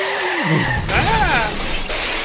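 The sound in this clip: A car crash sound effect begins with a skidding squeal that slides down in pitch, then a sharp crash burst followed by wavering, screeching tones and a steady roar.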